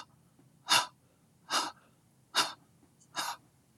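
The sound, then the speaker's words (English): Breath exhaled through the mouth in short, separate steps during a breathing exercise: four distinct breathy puffs, evenly spaced and fairly soft, with quiet pauses between them and no talking. “Hold. Exhale through the mouth in 5 incremental steps.”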